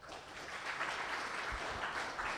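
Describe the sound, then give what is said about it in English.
Steady applause from an audience welcoming a professor onto the stage before his talk. The clapping is fairly faint and dense, running evenly without a break for the whole stretch. “please give Professor Lessig a big round of applause and welcome.”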